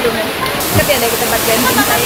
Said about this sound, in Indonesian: Curug atau air terjun cukup tinggi, sekitar 15 meter. Hanya saja aliran airnya tidak jatuh begitu saja,